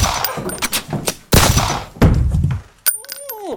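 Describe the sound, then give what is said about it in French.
Two gunshots in a dramatic standoff that kill a woman: two loud, sharp bangs stand out among smaller thuds and knocks, and a brief high ringing follows. “Elle a voulu sortir un gun et s'est faite buter de 2 balles dans la tête.”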